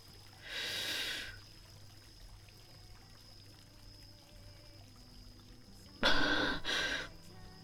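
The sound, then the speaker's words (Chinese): Sharp gasping breaths from someone who has just been holding their breath: one rushed intake near the start, then a louder double gasp after a quiet stretch. “抱歉，我忘记呼吸了。你刚才听到了。”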